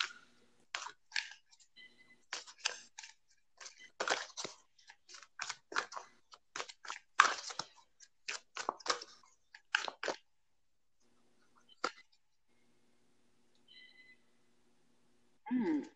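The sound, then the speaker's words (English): A Mystic Stone Oracle card deck is shuffled in many crisp, rapid snapping and riffling bursts, which then thin out to a few isolated soft taps. “I'm shuffling. So I have the Mystic Stone Oracle. Mystic Stone Oracle deck.”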